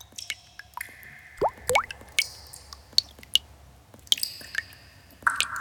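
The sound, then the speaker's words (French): Water drops dripping in an underground cave: many irregular plinks and plops, some with a quick upward-sliding pitch, standing out clearly against a quiet low background. “On est sous la terre, dans une grotte. Dans la grotte, on n'entend que les gouttes d'eau.”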